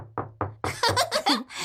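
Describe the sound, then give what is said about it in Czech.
A hand knocks a few times in quick, even succession with dull low thumps, then brief voice sounds follow over lighter noise. “No a co umí druhá ruka? Takhle bouchá. Takhle ťuká.”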